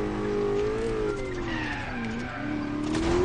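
Racing cars in a road race in an Xbox 360 video game: a sustained engine drone whose pitch sags and climbs again, with tire squeal over it, loud and continuous throughout.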